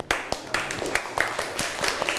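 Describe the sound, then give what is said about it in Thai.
Students clapping in a classroom to cheer on classmates, a few uneven, sharp claps at a low level. “เดี๋ยวเราปรบมือให้กำลังใจเพื่อนหน่อยค่ะ”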